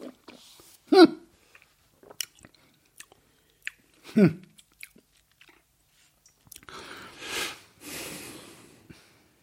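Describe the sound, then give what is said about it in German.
Someone chews a pear-hemp gummy bear with soft, moist smacking and breaths, with two louder snorting bursts early on and a couple of hums toward the end. “Birnenhanf-Gummibärchen. Birnenschorf. So, ich probier mal.”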